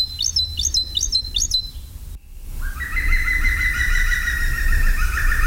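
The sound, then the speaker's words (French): Great tit song: a few bright, high two-note phrases repeated in quick, even succession, followed by longer, steadier whistled singing. “Le numéro 18, évidemment, fréquente souvent l'homme, c'est la mésange charbonnière.”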